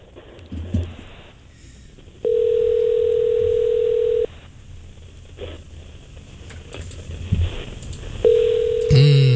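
Ringback tone of an outgoing telephone call: two long, steady, mid-pitched tones separated by a pause, the second cut short at the end, over faint low background noise.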